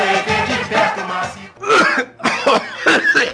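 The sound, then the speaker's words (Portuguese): A person coughs in a harsh, hacking fit, with several rough bursts running close together and short gaps between them. “Interrompemos esta tosse para um comunicado importante sobre a tuberculose.”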